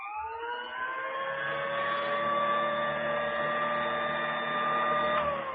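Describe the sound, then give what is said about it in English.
An old-style vacuum sweeper motor runs while standing in place: a steady, loud whine rich in harmonics. It climbs briefly in pitch at the start, then holds an even drone throughout. “If the machine is standing in one place, if it is not being used, it will sound like this.”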